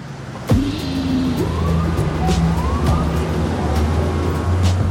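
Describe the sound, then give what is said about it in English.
Dense traffic noise at New York City's Columbus Circle, a steady rumble of cars with a low hum beneath it, while a siren wails over the top in rising and falling sweeps. “Sarandos and Hastings stand in the center of New York City's noisy Columbus Circle”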